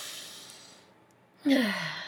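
A deep breath taken slowly: a long, quiet, airy intake that fades, then a sudden louder sighing exhale that trails off, with no talking.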